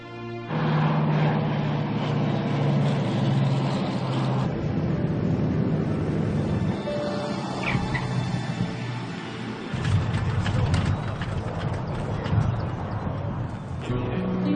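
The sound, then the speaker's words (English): Douglas DC-3 airplane at Kelowna's airport, its piston engines giving a loud, steady, rough drone with a low hum throughout, continuous and unbroken for the whole stretch. “Friends and family have been waiting for the DC-3.”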